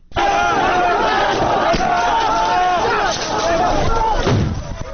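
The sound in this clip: Migrants shouting at the Macedonian border crossing, a loud crowd of many overlapping raised voices and cries that stays dense and agitated throughout, with individual shouts rising and falling over a rough background rumble.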